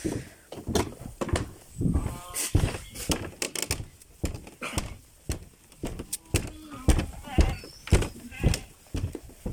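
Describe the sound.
Rams bleat on a farm at feeding time while hay, grain and beets are handed out. A few bleats sound among many sharp knocks and rattles of moderate loudness.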